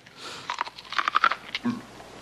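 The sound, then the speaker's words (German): Crunchy chewing of raw corn fresh from the field: several crisp, snapping bites and munches come in quick succession, fairly faint and alone. “Das Zeug ist ja roh. Ich weiß, ist das nicht wundervoll? So schön knusprig. Natürlich ist es knusprig, es ist ja roh.”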